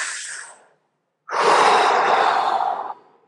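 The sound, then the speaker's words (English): Deep, slow breathing at a calm pace. A breathy tail fades out, then after a short pause comes one long, loud, steady rush of air that holds for over a second before stopping. “you want to just deep inhale, deep exhale”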